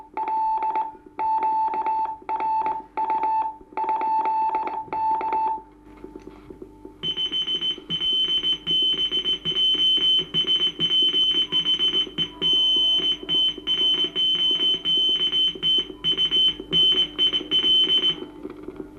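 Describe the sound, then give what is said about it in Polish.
Morse code radio signals from ships, received at a coastal radio station: a lower tone keyed in rhythmic dot-dash bursts for about five seconds, then, after a short gap, a higher-pitched tone keyed rapidly in long, dense runs. “Płyną też rozmowy według znanych tylko radiooperatorom i radiooficerom statkowym rozmowy przy pomocy umownych znaków Morsa.”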